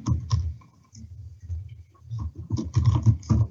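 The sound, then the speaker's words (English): Keys on a computer keyboard are pressed as someone hits the Windows key and types a short search in Windows 10: irregular clusters of crisp clicks separated by brief pauses, growing busier toward the end. “I first press the Windows key and then type the words mouse size”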